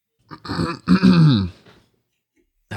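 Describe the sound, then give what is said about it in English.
Drawn-out throat clearing: a rough, voiced rasp that swells for about a second, then trails off into quiet, with another sound starting right at the end. “It's never good when they clear their throat first. It's never, never a good sign.”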